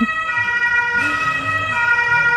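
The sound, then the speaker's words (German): A siren wails loudly and continuously, its tone held steady through the whole stretch with a gentle dip and rise in the middle. “Dann warten wir hier nochmal die Sirene ab”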